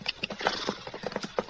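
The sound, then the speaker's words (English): Horse hooves clip-clop in a quick, uneven run of several sharp, faint knocks. “That horse doesn't belong at the center. Wonder whose it is.”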